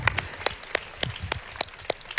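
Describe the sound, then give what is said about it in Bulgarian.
Audience applause at a Bulgarian music awards ceremony, heard as sparse, fairly quiet hand claps that fall in an even rhythm. “Силни аплодисменти! Силни аплодисменти за Борис Христов и Бояна Карпатова!”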